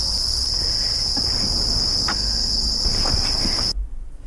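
Crickets kept and bred by a breeder chirp in a continuous, shrill, bell-like high trill, loud and steady, with no voices, until the sound cuts off abruptly near the end.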